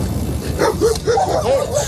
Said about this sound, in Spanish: Perros que le siguen, perros que le ladran, que lo escoltan o que casi acaban bajo las ruedas.